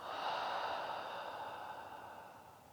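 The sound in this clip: A slow, deep breath, soft and airy, drawn out for a few seconds and gradually fading. Quiet, with no voices.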